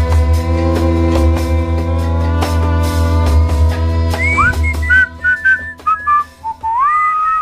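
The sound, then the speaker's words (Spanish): A person whistles softly, a short wandering tune of sliding, wavering notes that rises and dips, following a sustained tonal passage at the start. “Nos vamos silbando bajito.”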